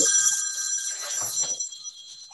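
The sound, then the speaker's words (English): A mobile phone ringtone goes off during a conversation: bright, high electronic tones ring steadily and fairly loud on their own, then fade away. “excuse me, I thought I had turned my phone on.”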